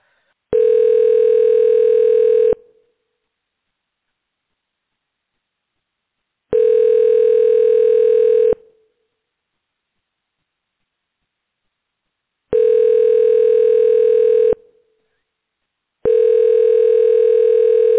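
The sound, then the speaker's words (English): An overseas telephone ringing tone on a call: four long, steady, even tones of about two seconds each, separated by long silent gaps, the last one cut off at the end. “Sounds like an overseas ringy dingy.”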